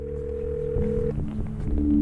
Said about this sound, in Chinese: 赵辉拨通手机